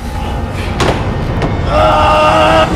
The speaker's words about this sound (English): The room's steel door swings shut.